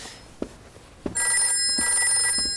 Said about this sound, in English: That's the phone.